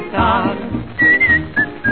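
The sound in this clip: A whistled tune with a few short, clear, high notes in a bouncy rhythm, set over music.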